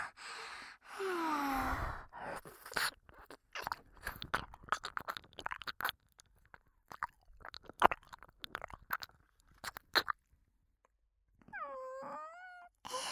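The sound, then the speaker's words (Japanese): Wet mouth sounds of licking inside an ear: many irregular smacking, slurping clicks, with a breathy moan at the start and soft voiced sighs near the end. “目いっぱいなめなめしちゃうね。お兄さんのお耳の中、いただきまーす。”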